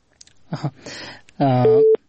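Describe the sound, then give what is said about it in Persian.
A telephone tone follows a dropped call from Kunduz province: after a few words of speech, a single short, steady beep sounds near the end. “تماس ای دوست ما قطع شد که از ولایت کندز تماس گرفته بودن”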